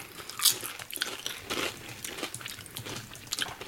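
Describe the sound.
Crisp crunching of smoky potato chips being bitten and chewed, a steady run of dry crackles with a few sharper bites standing out.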